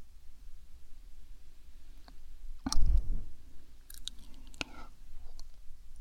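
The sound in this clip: Close chewing of a piece of fruit: a brief louder crunchy, wet burst of mouth sounds, followed by a few soft clicks and faint smacking over a quiet background.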